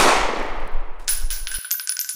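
A gunshot in a radio drama, one loud burst that decays quickly, followed by a thin, high ringing tone.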